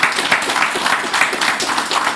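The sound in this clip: Applause from an audience at a Polish election candidates' event: a dense, steady patter of many hands clapping at an even loudness throughout.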